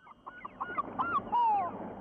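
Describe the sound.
Goose-like honking bird calls: a few short, nasal honks followed by one longer, drawn-out call, moderately loud over a quiet low background.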